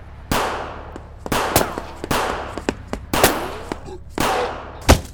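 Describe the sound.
Gunfire in a video game: several sharp, loud bangs with short ringing tails, spaced irregularly over a few seconds, with no speech between them.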